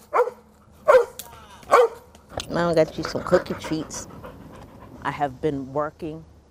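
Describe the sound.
Two dogs living with their owner in a tiny house pant heavily, with a few sharp barks and whining yelps in between. Speech can be heard over parts of the panting.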